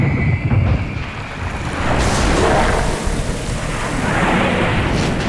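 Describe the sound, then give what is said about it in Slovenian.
Ocean surf near the shore gives a continuous, loud, rushing roar of breaking and washing waves, swelling slightly toward the middle, with no voices. “Oj, oj, kakšno razburjenje. Sva blizu oceana, nedaleč od obale.”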